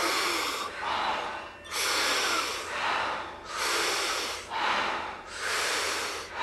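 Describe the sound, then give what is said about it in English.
Big rhythmic breathing for a relaxed breathing exercise: several deep, hissing inhales alternate with soft, relaxed exhales in a steady, even cycle, with no talk. “the inhale is really big. You want your chest, your belly, everything to expand. And when you exhale, it's a soft exhale, completely relaxed. We do it rhythmically, we do it together. It sounds like this.”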